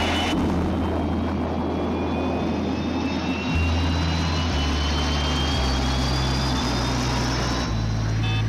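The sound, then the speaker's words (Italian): Airplane taking off: a heavy, steady jet roar with deep low rumble and a thin high whine that climbs slowly in pitch, loud and continuous throughout with no voices. “Decollo perfetto, comandante. Non risultano difetti di nessun genere.”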